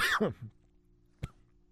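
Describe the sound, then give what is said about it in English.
A person coughs. A harsh, voiced cough comes first, followed about a second later by a shorter, fainter burst like a throat clearing. Both are fairly quiet. “wow, I just coughed on air. Haven't done that in like 10 years.”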